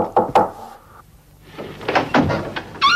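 Knuckles knock on a door: two sharp raps at the start, a brief quiet, then a few more duller thuds and knocks. All are loud and close together, with no voices.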